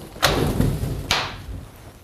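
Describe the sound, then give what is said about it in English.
Two sharp clunks from the passenger-side slide lock of a LORADO roll-up tonneau cover as it slides onto the rail, spaced about a second apart, with a low rumble in between. “For additional security, on the passenger side, there's a slide lock that grabs onto this rail right here. So once you've closed it, just slide it into place.”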